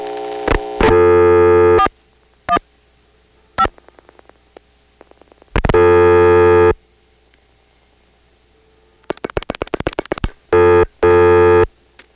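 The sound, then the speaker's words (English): A telephone register sender outpulses digits on a phone line during a dial pulse test. Loud bursts of steady buzzing tone alternate with trains of rapid clicking pulses, with short quiet gaps between them and no voices. “So if we dialed the official code for the dial pulse test, which is 415, the register sender should be dialing 75.”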